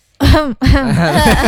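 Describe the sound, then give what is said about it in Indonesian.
A loud, rough throat-clearing cough, made of two voiced, raspy bursts separated by a brief gap. “Itu batuk ya? Itu batuk apa gimana?”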